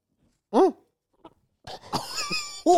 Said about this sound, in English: really gagged herself. Oh my God, I really will throw up.